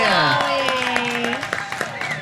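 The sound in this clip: Audience cheering and applause at a fair show after a call for cheers for Dolly Parton: loud raised voices shout together over scattered clapping, and the claps grow sharper toward the end.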